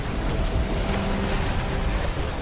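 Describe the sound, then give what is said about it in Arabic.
Heavy rain pours in a steady, dense hiss that fills the whole clip at a constant level, with no distinct drops, pauses or voices standing out from the downpour. “لا يمكننا أن نرى أين نحن بسبب هذا المطر الغزير.”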